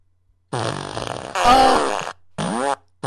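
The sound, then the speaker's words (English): Fart machine sound effect: a long, loud, wavering blast, then two shorter raspy bursts with brief gaps between them. “Oh, she's gonna give you the fart machine. I asked her if she wants the fart machine.”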